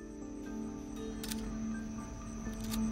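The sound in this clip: Camera shutter clicks as photos are taken, a few sharp, brief snaps standing out over a steady low hum.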